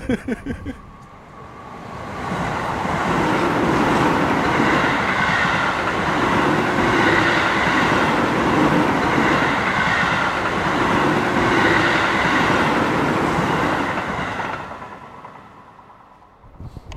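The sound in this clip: A train arriving at a station in Brighton, its loud, steady rumble and rattling wheels swelling in after a moment, holding throughout, then fading away near the end.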